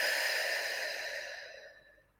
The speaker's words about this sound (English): Just deep, grounding, nourishing breaths. And again, in through your nose, out your mouth.